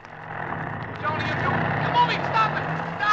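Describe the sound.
A car engine runs with a steady, low, droning rumble that builds slightly from the start and holds, while voices talk over it.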